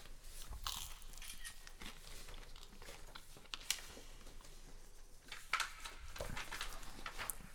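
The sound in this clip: Biting into and chewing a salty topping eaten on bread. Many crisp, uneven crunches sound faint and close, with no talk.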